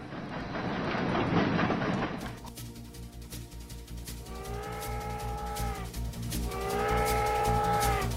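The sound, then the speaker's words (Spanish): A train entering a station platform, with a low rumbling start followed by two long, drawn-out tonal wails. “El tren entra por el andén 3”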